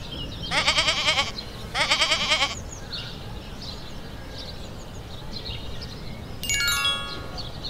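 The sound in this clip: A goat bleats twice in quick succession, each call a loud, wavering, nasal cry of under a second, followed by quieter background and a later higher-pitched call near the end.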